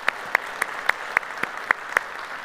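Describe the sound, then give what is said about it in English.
Clapping from a church audience welcoming remote campus members into the room: eight sharp claps land in an even, steady rhythm over a soft bed of scattered applause. “So if you would, put your hands together and welcome them into our family room here today.”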